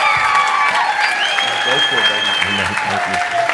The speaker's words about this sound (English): Hey, would you just welcome one of my best friends in the entire universe? Put your hands together for Pastor Tracy Armstrong tonight.